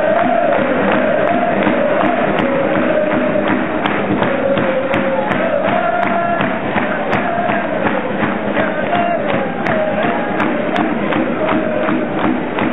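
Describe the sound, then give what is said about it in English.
Shrewsbury Town football fans sing loudly in unison with a wavering chant melody over dense crowd noise, just before a penalty shootout at a match. “So from the video I took, you can see that this is the exact moment when this video was taken. So just before the penalties were taken, when we're deciding who's taking which penalties, and Shrewsbury Town fans are in full voice again.”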